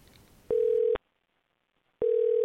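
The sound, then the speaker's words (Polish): Ringing tone of an outgoing phone call: two identical steady beeps at one pitch, each about half a second long and separated by a second of silence, loud and clean with no voices. “I nawet jak zadzwonię teraz, to pewnie nie odbierze.”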